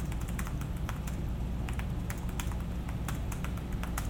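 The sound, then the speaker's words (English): Typing on a Microsoft Surface type cover keyboard: many quick, light keystrokes in an uneven, continuous stream, with no voices. “the type cover for the Surface sounds like this.”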